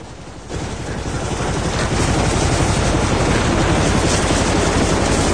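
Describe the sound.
A helicopter hovers above a ship's deck, its loud, dense rotor roar full of rapid chopping thumps, swelling after a brief start and then holding steady.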